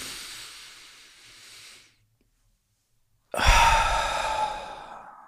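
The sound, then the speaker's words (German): A deep breath is drawn in through the nose as a soft, steady hiss for about two seconds. After a short silence comes a louder, breathy exhale through the mouth that slowly fades. “Setz dich also hin, mach's dir bequem und atme einmal tief durch die Nase ein und durch den Mund aus.”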